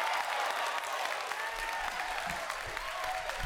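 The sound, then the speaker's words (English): Studio audience applauding, with a continuous wash of clapping that stays steady and fairly faint throughout. “Listen to the audience. It's getting more excited by the second here.”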